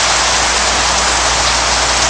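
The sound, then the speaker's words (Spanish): A heavy rain shower pours down just after leaving a ranch, a dense, loud, unbroken hiss of drops striking surfaces, steady from start to finish with no voices. “Está lloviendo otra vez. Nos ha pillado de nuevo el chaparrón justo al salir del rancho de Gigi Cale.”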